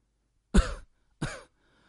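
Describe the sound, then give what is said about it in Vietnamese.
An old woman coughs and clears her throat in two rough, throaty bursts separated by a short pause, the first slightly louder and longer than the second. “Bà hò húng hắng rồi nói.”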